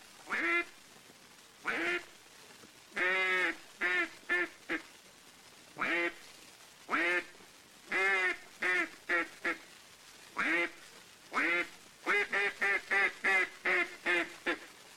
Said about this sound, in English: Here is the call of the wild mallard hen sitting on water.